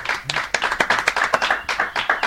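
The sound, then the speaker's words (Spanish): Applause from an audience gathered in a garage bar: dense, crisp handclaps in a brisk, even patter, fairly loud throughout. “Las palabras tan dulces, ¿no? Y tan sentidas de Pedro, justo pues ha arrancado hasta aplausos de nuestro público que se reúne acá en el garaje bar cada 15 días”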